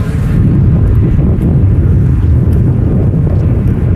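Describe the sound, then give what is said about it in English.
Wind blows across a wide, cold beach, a steady, loud low roar that buffets continuously without a break and with no voices. “Outside, the wind has picked up as the candidates walk across the wide, cold beach to where they'll start their first test, a 1,000-yard swim around Huntington Beach's massive pier.”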